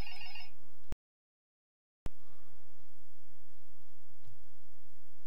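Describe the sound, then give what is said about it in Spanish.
A telephone rings with an incoming call: a short burst of bright ringtone opens, then the sound drops out completely before steady background hiss returns. “Se está colando una llamada, fíjate. Coge la llamada, ¿no? Coge la llamada.”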